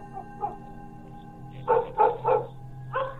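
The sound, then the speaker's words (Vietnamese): Dogs bark in a village at night: two faint yelps come first, then four louder barks in an irregular run, all over a steady low hum. “Mấy con chó ở trong làng dường như cảm thấy điều gì đó, cứ chõ mõm ra ngoài đằng ấy mà cắn lên ông ổng đến sót cả ruột.”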